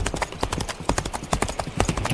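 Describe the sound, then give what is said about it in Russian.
A horse trots at a brisk pace, its hooves clip-clopping in a steady rhythm of many sharp, loud knocks that keep going without a break. “Конь побежал крупной рысью, но Дик без труда поспевал за ним.”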